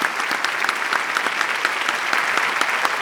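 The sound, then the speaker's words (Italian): An audience applauds young performers at a live show, with dense, steady clapping that stays loud and even from start to finish. “gentilmente a questo meraviglioso pubblico di fare a questi ragazzi un grande, grandissimo applauso.”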